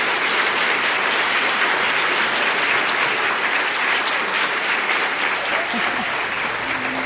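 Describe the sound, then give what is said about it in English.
Audience applause welcoming two speakers at the Jewish Community Center of San Francisco: a dense, steady clapping that stays loud and unbroken throughout. “Let's give both of them a warm welcome to the Jewish Community Center of San Francisco.”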